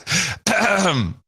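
A recording of someone clearing their throat: a short rough rasp, a brief pause, then a longer grinding throat clear, loud and with no other sound.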